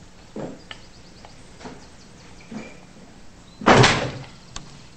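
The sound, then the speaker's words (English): A door shoved shut with a foot: a few soft knocks and shuffles, then one loud heavy thud with a short rattle, followed by a light tap. “Raising the mug and creamer to them, Zach shoves the door shut with his foot.”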